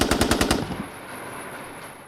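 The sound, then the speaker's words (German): Gunshots fired into a ceiling crack out in a fast, even burst of loud reports lasting about half a second. A fading tail of reverberation follows, and no one speaks. “Insgesamt fielen 7 Schüsse.”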